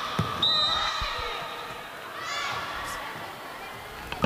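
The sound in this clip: A team captain serves the ball in a school match for Ang Thong, with a few sharp ball thuds. An announcer's voice and background chatter run beneath.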